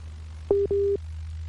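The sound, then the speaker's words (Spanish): Telephone line tone on a dropped call: two short, steady, mid-pitched beeps in quick succession, the second slightly longer, over a low constant hum, with no voices. “A ver si recuperamos la llamada que estamos teniendo con Ricardo”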